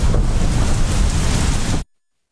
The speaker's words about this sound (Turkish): Kabe'nin etrafındaki kalabalık yağışın şiddetine rağmen dağılmadı. Sağanak altında sürdürülen tavaf ortaya bu görüntüleri çıkardı.